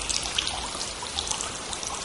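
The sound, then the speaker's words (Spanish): Rain falls on freshly planted seeds as a steady, dense patter, a continuous hiss of fine drops with small trickling splashes and no voices. “¡Qué lluvia tan rica hemos recibido junto a mis hermanas semillas!”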